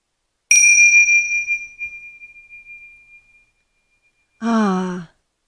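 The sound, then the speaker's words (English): A meditation chime is struck once, giving a bright, high ringing tone that fades slowly over about three seconds. A short voiced sound follows after a pause. “We have found that certain types of sound can provide a focus for meditation. For example, that chime,”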